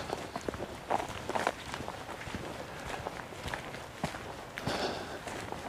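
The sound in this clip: Footsteps from a walking character in a video game form a quick, steady series of many footfalls at a fairly quiet level, with no voices over them.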